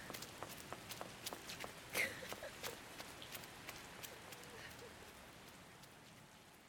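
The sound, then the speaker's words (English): Running footsteps patter in a quick, fairly even rhythm, many light, sharp steps that stay faint and alone with no voices, over a soft rain-like hiss. “We start running on the count of three.”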